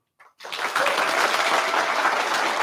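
Audience applause welcoming the writer of Sex Education, breaking out abruptly after a short moment and holding as loud, dense, continuous clapping to the end.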